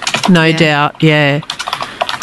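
Computer keyboard typing comes as a quick run of many light clicks, following two drawn-out voiced sounds.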